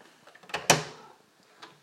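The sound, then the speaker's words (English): A door opens in a kitchen at night: a few soft taps lead into one louder latch clunk with a short ringing tail, then near-quiet with a faint knock at the end. “Now, who's at the door?”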